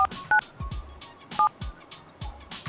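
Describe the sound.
Telephone keypad tones sound while someone dials a conference call number. A series of short, clear electronic beeps at slightly different pitches comes in an irregular rhythm over a low background hum.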